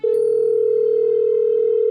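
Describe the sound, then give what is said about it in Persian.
A steady, unbroken telephone tone sounds on the line as a call is placed. It holds one pitch for about two seconds, loud and alone, with no voices. “شروع کردم به کرتیس زنگ زدن که فقط اذیتش کنم.”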